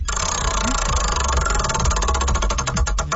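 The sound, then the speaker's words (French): A prize wheel spins on a game segment: a rapid run of ticking clicks over a steady low hum, with the clicks growing more distinct and more widely spaced toward the end as the wheel slows. “On va tourner la roue pour toi.”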